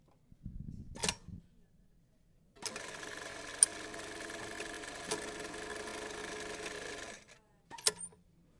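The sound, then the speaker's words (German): An automatic buttonhole machine stitches a buttonhole. A faint mechanical clunk and a pause give way to a steady, fast whirring hum of about four seconds, then a couple of short clunks as the machine stops. “Dieser Knopflochautomat übernimmt diese nervtötende Arbeit für dich und stickt dir innerhalb von Sekunden ein schönes Knopfloch.”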